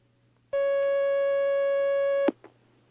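A single sustained electronic telephone line tone as a call comes in. It holds at a steady pitch for nearly two seconds, then is cut off by a sharp click and a fainter click.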